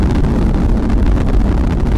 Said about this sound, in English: The Atlas rocket carrying OSIRIS-REx has gone supersonic.